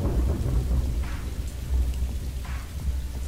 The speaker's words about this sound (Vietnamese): Mưa càng lúc càng xối xả, gió núi vun vút như những lưỡi dao nhọn lạnh lùng cứa đứt sinh mạch non nớt của